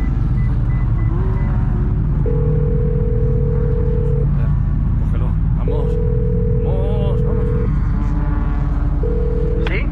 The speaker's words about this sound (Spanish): ¿Dónde narices nos has traído? ¿Qué, es este ruido infernal que nos has puesto al lado de una puta autopista?